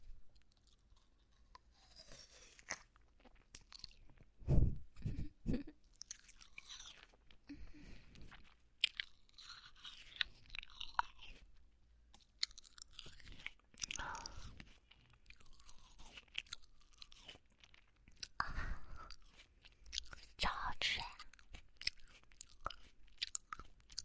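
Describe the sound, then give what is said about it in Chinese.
Chewing and biting into fruit, with wet, close mastication and a few sharper crunches repeating unevenly across the stretch. “吃着喜欢吃的水果，然后就这样跟你在一起。那再吃一口了。”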